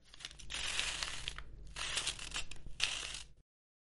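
A paper letter is handled, with crinkling and crumpling rustles in a few bursts that stop abruptly.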